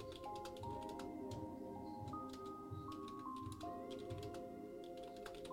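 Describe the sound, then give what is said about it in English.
Fingers type on a computer keyboard, making many light, irregular clicks that stay faint against a continuous humming background with sustained tones. “And if I just type slower, I would have less typos.”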